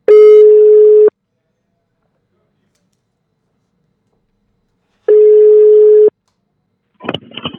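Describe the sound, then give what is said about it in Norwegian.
Two steady phone ringback tones sound while a call is placed to a Norwegian campsite. Each lasts about one second, with a long silent gap between them, and a voice begins answering at the very end. “Her skal vi prøve å ringe en norsk campingplass.”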